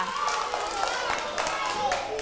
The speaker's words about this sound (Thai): ปรบมือให้ตัวเองหน่อยค่ะ